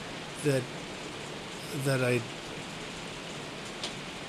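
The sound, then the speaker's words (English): Rain falls as a soft, steady hiss that runs through the whole stretch, with two brief bursts of voice rising above it. “I just want to listen to the rain for 5 seconds.”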